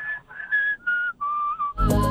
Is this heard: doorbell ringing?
no